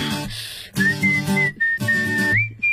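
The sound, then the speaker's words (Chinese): Person whistling a wavering, sliding melody over a pop song, the high whistled line holding notes and gliding between them above steady musical backing. “哎呀，还吹口哨呢。”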